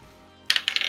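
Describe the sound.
Dice are rolled on a table for a constitution save during a tabletop role-playing game: after a quiet moment, a quick burst of bright clicks and clattering taps tumbles on for about half a second.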